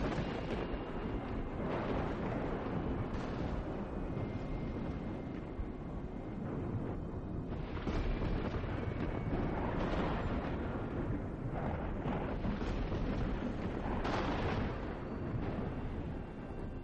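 Dry thunder rumbling outside with no rain: a continuous deep, rolling rumble that swells in a few waves across its length, with no other sounds.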